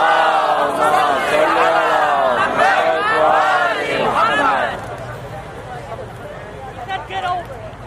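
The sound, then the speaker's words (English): An audience loudly chants salawat in unison to welcome a visiting shaykh. The chant holds for several seconds, then dies away into a low murmur of voices. “Give him a loud salawat ala Muhammad wa Ali Muhammad.”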